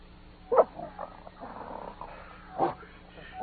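A dog on a leather leash in a radio drama makes a few short, rough growling or snuffling bursts, faint and low, with quieter rustling between them.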